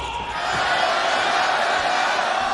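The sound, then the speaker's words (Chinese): A stadium crowd chants "China" just before a basketball game as the starting lineups take the court. It is a loud, dense and steady roar of many voices, with no single chant clearly separated. “双方首发进行登场，三声加油，中国中国中国”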